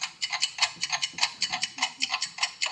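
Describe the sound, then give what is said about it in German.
Ticking of a clock: many sharp, bright clicks in a quick, steady, even rhythm, with no other sound. “Ich weiß nicht, ob euch das Ticken einer Uhr nervös macht. Aber wenn man eine ganze Weile hinhört, immer hinhört”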